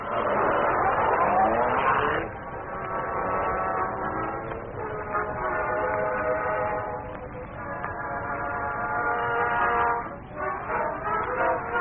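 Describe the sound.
The engine of the Black Beauty car revs as it drives off, a loud rising whine at first that settles into a steady droning hum with wavering pitch.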